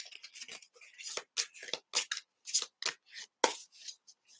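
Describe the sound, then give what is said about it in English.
Cards slipping and dropping out of a deck during a card reading, heard as many quick papery flicks and soft slaps in an uneven, rapid patter. “Did you see those cards drop out? You got two of them, girl.”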